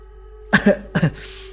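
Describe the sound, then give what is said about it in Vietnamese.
A dry cough from a person, two short harsh bursts in quick succession, each with a doubled attack, sounding alone with no speech. “Tôi ho khan một tiếng không nói.”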